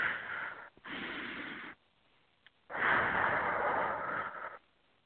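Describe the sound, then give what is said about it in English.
A deep breath taken during a spoken affirmation and grounding exercise: two long, airy rushes of breath, the first briefly broken partway through and the second longer and stronger, separated by a short quiet pause. “Take a nice deep breath.”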